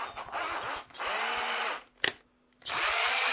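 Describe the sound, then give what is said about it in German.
A power drill drives screws into a sign in long, steady whirring runs, separated by pauses and a single sharp click. “So, vier Schrauben noch und das Schild hält.”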